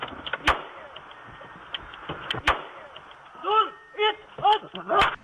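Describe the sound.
Gunfire is exchanged between police and a man shooting from inside a taxi, caught by the taxi's in-car camera: a few sharp, separate bangs spread across the moment, with shouting voices in between.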